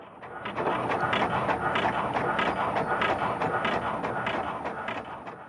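Rapid footsteps of an office worker dashing to a meeting room, a quick, steady patter of many closely spaced steps at an even, hurried rhythm, with no talk.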